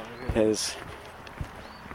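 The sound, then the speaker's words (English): Footsteps of a person walking: two soft, low thuds about a second apart, with a brief voice near the start over quiet background noise. “here's me walking. More walking.”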